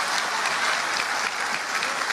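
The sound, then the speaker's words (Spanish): Audience applause during a sermon-style talk: dense, steady clapping from many hands that holds at an even level for the whole two seconds. “Un aplauso a los hombres o a las mujeres.”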